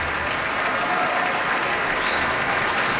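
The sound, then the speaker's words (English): A concert audience in the Koussevitzky Music Shed gives a standing ovation with dense, sustained applause, a steady, loud wash of many hands clapping throughout. “All of our artists bowing towards the audience with conductor Ken David Mazur as well. And this audience in the Kuzovitsky Music Shed on its feet with a standing ovation, and it looks like there is an encore.”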